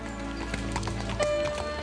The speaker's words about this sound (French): Soudain, en voyant une calèche tourner au coin de la rue, Joe